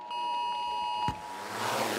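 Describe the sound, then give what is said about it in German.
A single steady electronic alert tone sounds during a nationwide warning day siren test. It holds for about a second before cutting off into a broad hiss. “Diesen Warnton haben Sie heute vielleicht gehört?”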